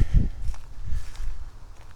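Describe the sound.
Footsteps walking on an outdoor boardwalk, a few dull, low thumps in a loose, steady rhythm over a faint windy background.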